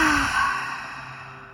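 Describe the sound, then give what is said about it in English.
A deep, complete exhalation during a guided breathing and energy practice. One long, airy breath out that starts fairly loud and slowly fades, with no talking over it. “And breathe out completely.”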